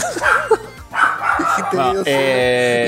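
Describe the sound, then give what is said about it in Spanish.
A dog barks and yelps excitedly at an unfamiliar visitor who has come to see a baby at home, with sharp barks and a higher whining yelp mixed with a person talking. “Mi perro empezó a ladrar. En realidad empezó a ladrar porque vinieron a ver a la bebé y vino alguien que él no conoce.”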